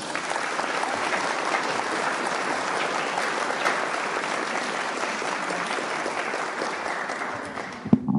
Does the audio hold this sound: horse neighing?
no